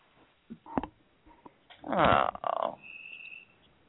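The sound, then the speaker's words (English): A frog croaks alone: a few short, faint croaks, then a longer, louder burst of deep, rattling croaking. “for bringing the frog. The frog and the crickets.”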